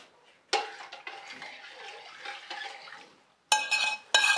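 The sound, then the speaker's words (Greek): Food stirred in a pan with clarified butter while it comes back up to temperature: soft scraping and sizzle, punctuated by a few sharp metallic clinks of the utensil against the pan. “Και ανακατεύουμε τώρα πάλι να ξαναπάρει θερμοκρασία.”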